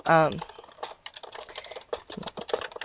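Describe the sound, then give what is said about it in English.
Typing on a computer keyboard to enter a question in a chat room: rapid, irregular key clicks following a brief voice at the very start. “And I'm going to type a question in the chat room again and see if anybody knows.”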